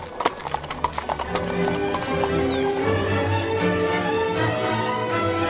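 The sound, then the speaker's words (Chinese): Horses pull a golden carriage with steady clip-clopping hooves, sharpest in the first second, then a continuous trot under a sustained tonal layer, with a brief whinny. “汉斯和公主结婚之后，还派了一辆金马车去迎接父母亲，来和他们住在一起。”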